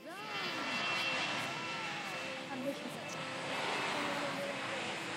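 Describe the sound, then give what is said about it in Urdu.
Airplane engine roar as the aircraft departs, a steady, dense rushing drone that holds for the whole clip with voices mixed in underneath. “The اسکولر school کی team کو لے کر جہاز سفر پر روانہ ہوا ہے جناب.”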